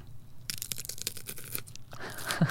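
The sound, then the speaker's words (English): Crisp crunching and snapping of green beans being eaten ASMR-style, a rapid run of crackly bites and chews, busy and fairly soft. “Well, why are you eating asparagus on air, bro? It's beans. I'll do a bit of ASMR.”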